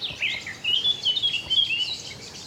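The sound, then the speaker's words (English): Woodland birdsong in the Brecon Beacons: rapid, high, thin chirps and short trilled phrases come in quick bursts, alone and without voices. “So much bird life. I always think bird life starts to dip, bird song starts to dip around mid-May.”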